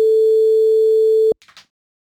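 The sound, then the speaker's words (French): Ringing tone of an outgoing call back to a guest, a single steady tone lasting just over a second before it cuts off, followed by a few faint brief clicks. “On va rappeler tout de suite Yasmine. Pof, c'est parti.”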